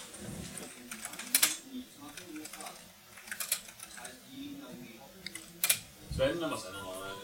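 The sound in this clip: Typing on a computer keyboard: scattered key clicks with a few sharp, louder strikes, heard under a person talking quietly.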